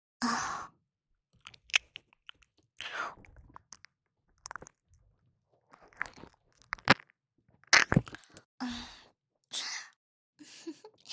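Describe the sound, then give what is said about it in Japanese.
Close ASMR mouth sounds of biting and nibbling an ear: soft crunchy bites and breathy sighs arrive in short bursts separated by quiet gaps. “ちゃんと反対側もかじってあげますよ。”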